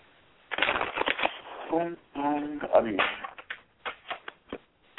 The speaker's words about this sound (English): Can I put the cards out so we get some clarification on some things?